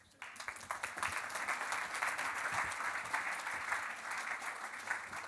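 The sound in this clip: Audience applause welcoming a moderator on stage: dense, even clapping that starts abruptly after a brief quiet moment and continues steadily, moderately faint, to the end.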